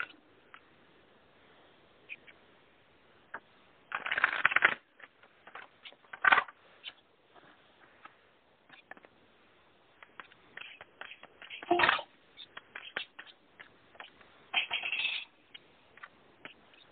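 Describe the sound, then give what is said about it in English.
Tarot cards being shuffled and pulled, heard as a few short, soft papery rustling bursts spaced apart against near silence, with no voices. “We have them almost done, but I wanted to just pull a few cards.”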